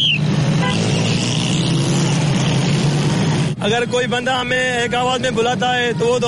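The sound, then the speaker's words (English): City street traffic in Karachi, Pakistan: a dense, constant roar of engines and vehicles with a low hum beneath, after which a voice starts up over the ongoing din. “As Salim Shayan reports, it's a particularly serious problem in megacities like Karachi in Pakistan, where noise is a constant companion.”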